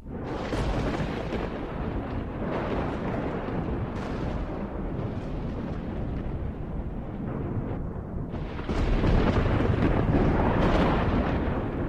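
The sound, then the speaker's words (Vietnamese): Thunder and lightning as a sound effect for a storm that rolls in suddenly: a continuous, dense rumbling roar with crackling texture, steady at first and then swelling louder near the end. “Liên tiếp những tia sấm chớp lập lòe trên bầu trời, kèm theo những tiếng đinh tai nhức óc.”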